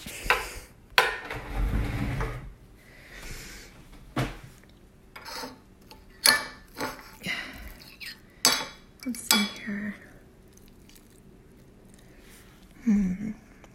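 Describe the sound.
Cutlery clinking and scraping against dishes during a meal of eggs: many irregular, sharp clinks and taps of varying loudness, with a low rumble near the start.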